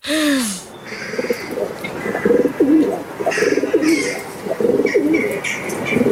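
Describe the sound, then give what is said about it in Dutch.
Pigeon cooing down a chimney: a steady series of low, soft, throaty coos repeating through the whole stretch, with a few faint higher bird chirps above. “Want we luisteren naar een duif die door de schoorsteen koert.”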